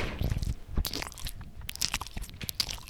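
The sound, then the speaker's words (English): Crunchy bites into 7-Eleven munchkin donut holes, followed by chewing: a few sharp crunches, then irregular moist mastication sounds, quiet and without talk. “Take a bite out of my, you know, 7-Eleven munchkins. Yo, can you do some ASMR, please?”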